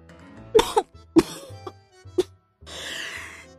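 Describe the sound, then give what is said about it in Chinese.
Performed coughing fit after choking: a few harsh, throaty coughs in quick bursts, then a longer breathy rasp as the fit trails off. “小宝再一次被他呛住，咳了个昏天黑地”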